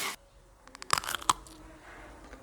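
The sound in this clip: Someone bites into a Bockwurst sausage with mustard, giving a few sharp, crisp snapping crunches amid soft chewing, all fairly faint.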